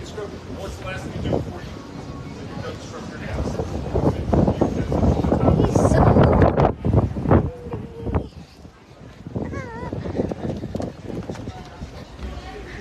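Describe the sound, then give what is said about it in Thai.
Strong wind gusts and buffets the microphone in loud, rumbling waves that swell and ease, while voices talk through the noise. “ดูลมแรงมาก”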